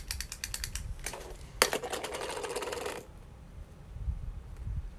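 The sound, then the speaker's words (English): Pen-shaped correction tape dispenser in use: a run of small sharp clicks, then a dry, scratchy rasp lasting over a second as the tape drags across paper, then quiet. “You're gonna think this is a pen, it's correction tape.”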